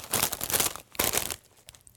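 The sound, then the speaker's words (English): Crunching on ranch-flavoured potato chips: two dense bursts of crisp crackling, a longer one then a shorter one, fairly loud and close, fading to faint rustles at the end, with no talk. “Sorry for crunching into your ears, by the way. Edit this out. Edit all the crunching out.”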